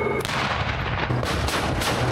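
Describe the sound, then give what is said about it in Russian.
Heavy gunfire from tank guns during daily live-fire crew training alongside tank support combat vehicles: a few sharp booming shots over a dense, continuous loud roar. “достигаются проведением ежедневной подготовки с боевой стрельбой танковых экипажей при взаимодействии с боевыми машинами поддержки танков «Терминатор».”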